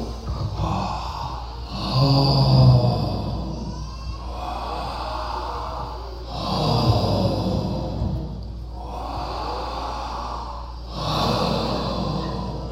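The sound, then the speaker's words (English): Rhythmic breathing through the mouth in a breathing exercise during a yoga class at a festival: loud, airy inhales alternate with exhales at an even pace, repeating for a series of breaths. “You're going to inhale. It's wah. You're going to exhale. Ho.”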